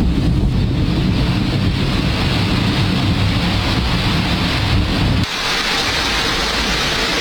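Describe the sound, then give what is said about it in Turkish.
Heavy rain pours onto flooded city streets in Istanbul, a dense, steady roar of water noise that holds loud and even, with a sudden drop in the low rumble near the end. “Aniden başlayan yağmur İstanbul'da yine aynı manzaralara sahne oldu. Yollar göle döndü. Caddeler su altında kaldı.”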